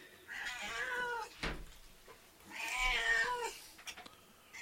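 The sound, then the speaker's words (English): A cat meows twice, each call long, loud and wavering, with a short sharp knock in the gap between them. “I feed the cats raw meat. Yes, Mrs. Filth buys like 70-pound sacks of raw meat. Whiskey agrees.”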